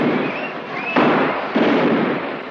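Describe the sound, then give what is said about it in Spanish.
Two gunshots are fired at a car in a street. Each is a sharp, loud bang, about half a second apart, with noise lingering after each one over a steady background din. “Chicho dispara al coche de Rosato que le atropella y le deja en mitad de la calzada.”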